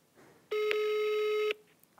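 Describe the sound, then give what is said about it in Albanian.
A telephone ringing tone sounds while a call is being placed: a single steady electronic tone lasting about a second, with quiet line noise before and after it. “do të provojmë të ta marrim në telefon dhe të marrim një deklaratë edhe nga ana e tij”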